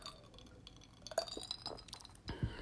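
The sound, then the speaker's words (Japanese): Someone drinks a beverage, with quiet glassy clinks and soft liquid sounds, then a brief swallowing gulp near the end. “ちょっと飲みますね”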